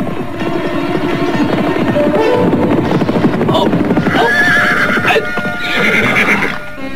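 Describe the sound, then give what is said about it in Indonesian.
Horses being ridden: steady clopping hoofbeats under loud, high neighing and whinnying that rises above the hooves midway, with no talk. “Belum lama Kelana Soka dan Warakinanti pergi, muncullah Ugrawe dan teman-temannya menunggang kuda.”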